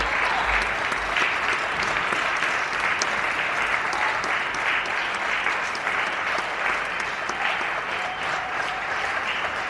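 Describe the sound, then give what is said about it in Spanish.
Applause from people in Spain clapping for health workers during the coronavirus lockdown, a dense, continuous patter of many hands that stays loud and even throughout. “En el día 12 del estado de alarma por la pandemia del coronavirus, seguimos aplaudiendo.”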